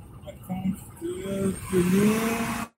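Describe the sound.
A car is driven along, with a steady low engine rumble and road noise under a few tonal hums that shift in pitch, and a faint murmur over it. The sound cuts off abruptly at the end.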